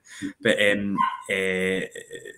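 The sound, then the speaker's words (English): A dog at the door trying to get into a house whines and yips in a few loud, pitched bursts that break off and start again. “There's a dog trying to get in my house.”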